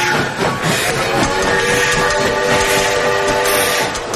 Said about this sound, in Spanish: Al fin llegó el tren que esperaba la señora.